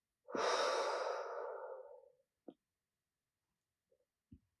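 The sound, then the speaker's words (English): Deep breathing: one long, soft, breathy whoosh of air lasting about two seconds, followed by a few faint, brief clicks in otherwise quiet surroundings. “Once again, deeply breathe in and out.”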